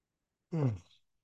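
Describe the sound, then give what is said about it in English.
A person yawns aloud once: a single voiced, breathy exhalation of about half a second that falls in pitch and trails off into silence. “So I'm going to start yawning now.”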